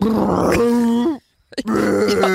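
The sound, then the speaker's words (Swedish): A voice imitates a bloated stomach letting out gas with two long, low, groaning buzzes separated by a short silent pause, both loud and strained. “Min mage blev större och större och större. Alltså grejen är så här, hade jag börjat släppa på trycket, då hade jag kunnat flyga hem till Bromma. Så förstår du? Och det låter så här.”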